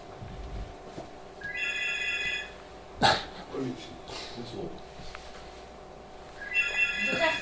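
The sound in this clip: A telephone rings in two short bursts of bright, trilling tone a few seconds apart. A low background hiss and scattered noises fill the gap between the rings.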